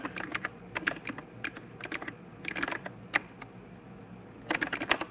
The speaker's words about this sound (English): it helps if I type the host name right.